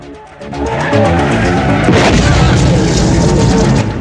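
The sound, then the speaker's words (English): An explosion rocks a Cadillac during a movie car chase: a heavy engine roar builds, then a single loud blast bursts through about halfway and leaves a rumbling, crackling wash. “An explosion rocks his car.”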